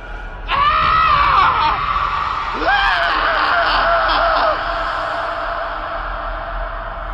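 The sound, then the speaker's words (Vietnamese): A man lets out an agonized dying scream in a rocky gorge: a long, loud, wavering cry that breaks into a second strained wail, then slowly fades in an echoing tail. “Tiếng kêu thảm trước khi chết của hắn như còn vọng lại giữa vách đá ẩn u.”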